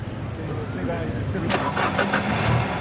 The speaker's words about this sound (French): Réglé au quart de poil, ce moteur devrait permettre à la Cosworth d'atteindre les 225 km/h. S'il veut bien démarrer,